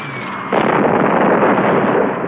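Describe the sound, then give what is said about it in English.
A bomb dropped from a plane explodes on a bridge: a short falling whistle gives way to a loud, sudden blast that swells into a broad, sustained roar and rumble, holding steady to the end. “Keep her steady. Okay. 3, 2, 1. Now. Bombs away.”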